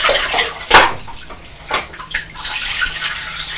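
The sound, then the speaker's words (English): Water pours in a heavy stream into a turning water wheel, making a loud gushing splash with irregular surges and bursts throughout. “It's going quicker now, isn't it? Because you're pouring a lot of water in it.”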